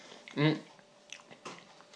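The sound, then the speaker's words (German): Someone eats while talking, and soft wet chewing and crunchy bites sound faintly between spoken words. Each bite is quiet and brief. “Und ich bin auch blöd, man sollte natürlich, wenn man erzählt, nicht essen.”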